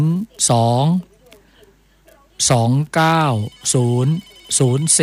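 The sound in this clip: A telephone rings as a listener calls in to a Thai phone-in line. Loud, warbling electronic ring bursts repeat several times, separated by short silent gaps.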